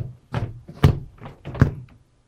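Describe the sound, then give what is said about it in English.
Quick run of dull, thudding impacts from short-distance strikes landing on a person during a martial arts demonstration. The hits are fast and uneven, and a faint, softer knock follows them before the sound falls silent. “How many times did you hit him right now? How many hits was that?”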